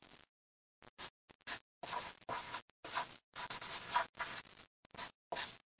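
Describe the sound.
Handwriting: faint, scratchy strokes of a writing tool across a surface, coming in many short, irregular bursts with brief pauses between them and no voices.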